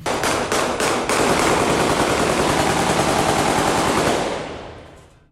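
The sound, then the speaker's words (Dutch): Heavy automatic gunfire fired into the air at a funeral in Beirut: a few sharp separate bursts open a loud, continuous roar of overlapping shots that holds for several seconds, then fades away. “deze begrafenis waar dit schieten zo extreem was”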